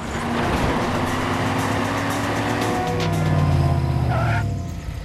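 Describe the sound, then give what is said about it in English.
Car engine and road noise as a car cuts in front of a school bus and parks outside a school, a loud, steady rumbling drone that holds throughout and eases off just before the end. “Ryan cuts in front of the school bus and turns off, parking outside the Wyman School.”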